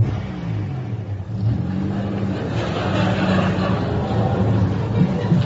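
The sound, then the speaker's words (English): A car reverses and then drives up for a filmed arrival, its mid-pitched engine humming steadily and growing a little louder as it moves. “Okay, driver, just reverse back to that corner so we can see you arriving.”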